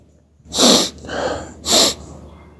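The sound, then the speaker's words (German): Forceful sniffing to clear a blocked nose: two loud, hissing sniffs with a softer snuffling breath between them, with no talk. “Entschuldigung, meine Nase ist verstopft. Ich muss mich mal, muss ich mal frei schniefen.”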